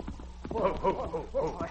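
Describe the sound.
Ridden horses' hooves clip-clop in an uneven run of soft knocks, with a voice heard over them throughout.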